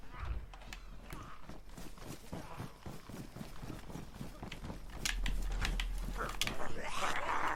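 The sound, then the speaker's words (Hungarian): A door opens with creaking mechanical sounds, and many even footsteps tread along at a regular pace. The steps grow louder toward the end. “Nyitom az ajtót és megyek.”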